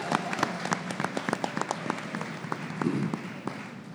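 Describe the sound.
An audience at a festival industry panel applauds with many distinct, scattered claps over a low murmur of the crowd. The clapping stays moderate and fairly steady throughout.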